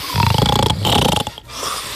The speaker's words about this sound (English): That is snoring. And if you sound like this, maybe get a CPAP machine, you know?